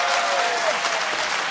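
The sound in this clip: A quiz-show audience applauds with thick, steady clapping at a constant level, with no breaks and no speech.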